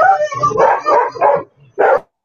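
Dogs bark loudly in a quick run of several sharp barks, then a short pause before one final bark, with no talk over them.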